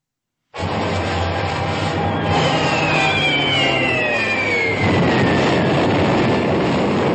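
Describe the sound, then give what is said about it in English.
The opening of the trailer for the film The Guns of Navarone starts abruptly with a loud, sustained roar after a brief silence. A high whining tone slides steadily downward through the noise, and the din grows slightly heavier toward the end. “here's the trailer for Guns of Navarone for Senator Cruz. Here it is.”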